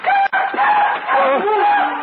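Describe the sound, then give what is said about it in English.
A night bird calls with a drawn-out, wavering harmonic cry whose pitch dips and bends for about two seconds. The call is loud and heard alone. “It's just another night bird”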